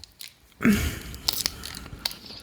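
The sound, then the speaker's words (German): Ginger candy being eaten, with one sharp, loud crunch followed by a few fainter crackling bites and small clicks. “Ich esse jetzt übrigens das dritte Ingwer-Bonbon.”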